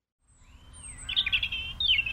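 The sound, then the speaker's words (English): Birds chirp and sing in high, thin whistled notes, building into bursts of quick twittering over a faint low rumble, with no voices present. “Bubba can sing, and the birds can sing.”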